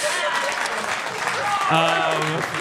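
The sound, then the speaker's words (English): Audience applause, a thick, even wash of clapping that carries on as a voice begins talking over it. “Don't sustain your applause.”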